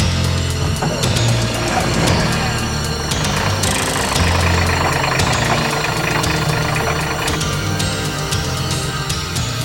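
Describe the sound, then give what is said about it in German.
A car engine runs loudly and steadily as the car drives up to a forest cabin through partly burning woods, with a dense, knocking rumble that stays constant throughout. “Ich fahre zur Hütte rauf.”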